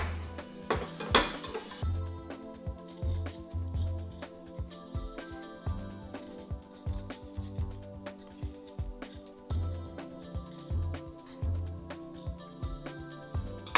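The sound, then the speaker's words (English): Fresh ginger is cut into smaller pieces with a knife, producing many faint, evenly spaced knocks in a steady rhythm, with one sharper clatter near the start. “So I'm gonna peel and slice the ginger. So I'll make the ginger into smaller pieces first. It'll be easier to peel this way.”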